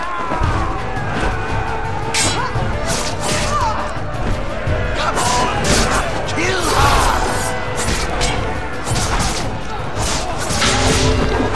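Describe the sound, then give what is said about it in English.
Swords clatter and crash as they are dropped in a video game, with many sharp metallic hits and thuds over dense, continuous game sound that stays loud throughout. “Very nice sound for dropping swords.”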